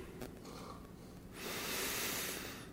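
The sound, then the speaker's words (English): A long, deep inhale during a guided breathing exercise: a faint, soft hiss of air rises about halfway through and holds steady to the end over low background noise, with no talking. “Now taking a deep inhale,”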